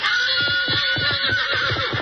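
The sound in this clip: A fiery three-year-old stallion whinnies loudly, a shrill, quavering neigh with many rapid pulses that lasts the whole moment with no voices.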